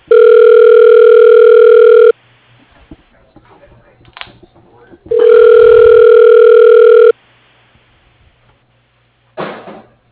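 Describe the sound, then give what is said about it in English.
Telephone ringback while a call is dialed: two long, steady electronic ring tones separated by a pause of faint rustling, then a short burst of tone at the very end. No voices. “Okay, dialing.”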